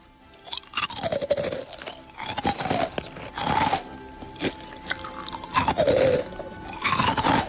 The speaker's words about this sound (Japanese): 一口サイズのどんどん焼きが入っております。ソースのいい香り。じゃあ早速ですね、食べていきたいと思います。音聞こえるかな。